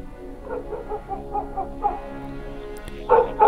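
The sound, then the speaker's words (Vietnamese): A pack of dogs barks, with a quick run of many yapping barks followed by a couple of louder, sharper barks near the end, over a steady droning background. “Ấy thế nào, tiếng chó sủa lại vang lên.”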